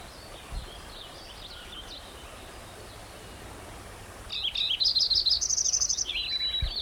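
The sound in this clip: A white-crowned sparrow sings a quick run of high, chirping notes that ends in a thin whistle, after a long stretch of quiet background hiss with a few faint high calls.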